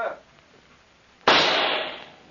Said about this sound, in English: I'll wager you a month's pay that I can smash that insect with one pistol shot.